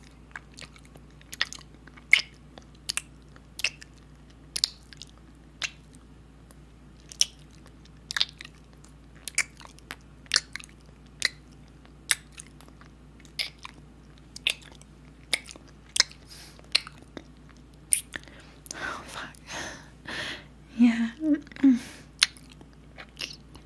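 Wet licking kisses from a puppy: many faint, quick smacking clicks in an irregular rhythm, gathering into a denser stretch of wet slurping near the end.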